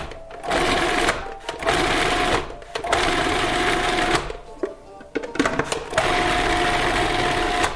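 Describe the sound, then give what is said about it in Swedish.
Electric mixer blending tortellini meat filling with cream, its motor giving a steady high whirring whine in several bursts separated by brief pauses. “nu ska vi mixa den här. Och viktigt är nu att inte mixa den här för hårt, utan var lite försiktig, för annars så kan själva färsen bli varm och att den spricker sen när man drar i.”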